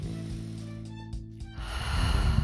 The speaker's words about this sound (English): Take deep breaths. Inhale the good shit. Exhale the bullshit.